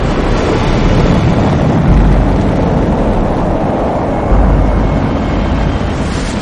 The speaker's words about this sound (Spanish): 6, 5, 4, 3, 2... 1. Despegue.